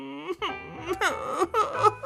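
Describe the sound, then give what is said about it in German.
A person cries in a radio drama, with wavering, high-pitched sobs and whimpers broken into a few moaning bursts. “Wenn ich nur daran denke, muss ich weinen.”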